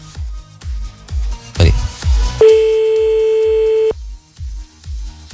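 Telephone tones sound as a call is redialled. A regular series of short repeated pulses is broken by a brief burst of other noise, then a steady tone holds for about a second and a half before the pulses resume.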